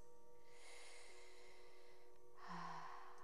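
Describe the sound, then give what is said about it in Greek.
A deep inhalation, faint and breathy with no voice, drawn in two soft airy stretches, the second slightly stronger. “βαθιά εισπνοή”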